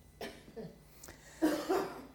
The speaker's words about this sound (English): as somebody went out coughing